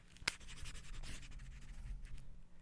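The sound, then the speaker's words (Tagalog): A pen scratches steadily across paper while someone writes out a list. The soft, faint scraping runs continuously and starts with one sharp tap of the pen. “Kunin ang panulat. Thank you. isulat ang mga bagay na gusto mong makamit.”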